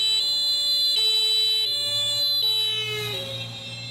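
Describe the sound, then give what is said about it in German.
A high-pitched emergency vehicle siren approaches, sounding loud and steady as two tones alternate in a regular pattern about once a second. “Wenn ein Einsatzwagen auf dich zugefahren kommt, hört sich das Signal meist hoch an.”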